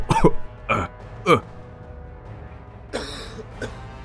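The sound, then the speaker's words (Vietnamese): Violent coughing: three harsh coughs in quick succession, then a pause and two weaker coughs, each fainter than the ones before. “Thầy Phong ho lên sặc sụa rồi yếu dần”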